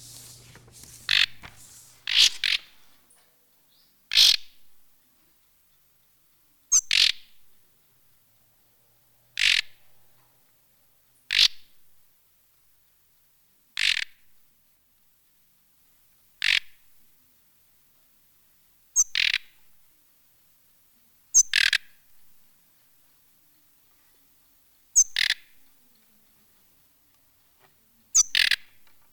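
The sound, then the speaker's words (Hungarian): Begging calls of a bird fledgling that has left the nest, short sharp calls in a quick cluster at first, then repeated singly at regular intervals of about two to three seconds over otherwise silent background. “Most egy kirepült fióka elesékkérő hangját halljuk, ezzel jelzi tartózkodási helyét szüleinek. A magas, rövid bevezető hangot egy mélyebb vibrált követi.”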